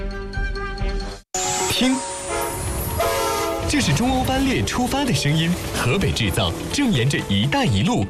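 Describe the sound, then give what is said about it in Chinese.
A China-Europe freight train departing as its horn sounds in a loud, sustained blast after a brief cutoff, over the heavy rumble and clatter of the rail cars. “听，这是中欧班列出发的声音，河北制造正沿着一带一路送到全世界的货架上。”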